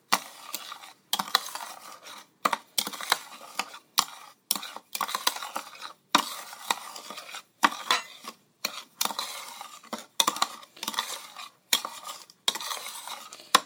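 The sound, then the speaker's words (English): Salts being stirred into sweet almond oil: many gritty scraping stirring strokes in a steady rhythm, separated by brief gaps, with no talking. “So I'm going to put that back in here. And I'll mix the salts with the sweet almond oil.”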